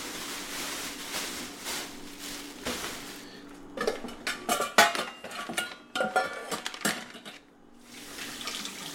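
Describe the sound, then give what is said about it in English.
Potatoes of mixed varieties are washed under a running tap. A steady rush of water gives way to many hollow knocks and clatters as the potatoes tumble in the sink, then the flowing water returns alone. “I get some potatoes washed.”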